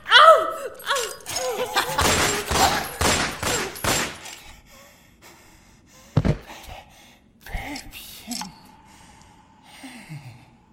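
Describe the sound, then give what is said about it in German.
Gunfire erupts in a loud, rapid volley of many shots over roughly three seconds, then gives way to quieter stretches broken by a few isolated sharp bangs. “Ich hab doch gesagt, dass ich schießen werde.”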